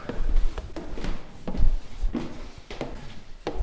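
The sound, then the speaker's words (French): Footsteps climbing the 150 stairs of a 35-metre water tower converted into a holiday lodge: a few irregular, dull footfalls thud one after another, each a short soft knock against a low, steady background. “Mais pour se retrouver à 35 mètres de hauteur, il a d'abord fallu grimper les 150 marches.”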